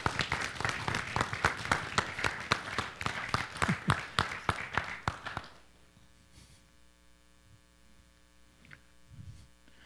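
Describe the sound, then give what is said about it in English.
Audience applause greets two guests arriving on stage: dense, loud clapping runs steadily for about five seconds, then stops abruptly, leaving a faint, steady electrical hum. “But why don't you welcome Wara and Linda? Give them a hand, would you?”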